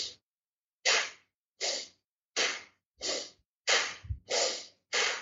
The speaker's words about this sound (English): Getting that force exhale.